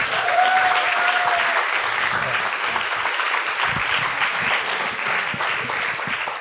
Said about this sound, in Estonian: Teeme Rogerile ja Taurile aplausi, palun.